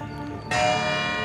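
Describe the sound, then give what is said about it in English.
A bell rung at a memorial ceremony gives a single bright strike that swells into a sustained, shimmering tone over the lingering hum of an earlier ring. “After the final name, Thibodeau rings the bell one last time.”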